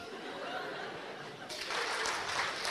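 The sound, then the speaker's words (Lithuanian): Audience applause breaks out midway through and grows into steady clapping after a quieter opening. “A jūs galvojat, kuo jūs darot dabar? Jūs plojat, kad daugiau nematom?”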